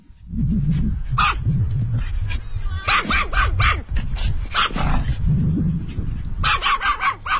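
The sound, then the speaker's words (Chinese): Dogs barking in a large grassy dog park on a hillside, loud and repeated in several bursts of sharp barks over a steady low rumble of activity. “小狗可以在草地上任意的奔跑玩耍。”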